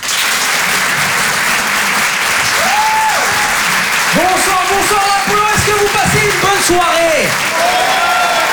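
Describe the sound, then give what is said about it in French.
Audience applause at a comedy club, dense steady clapping throughout, with cheering voices rising over it in the second half. “Faites du bruit, s'il vous plaît, pour Bruno Pecky.”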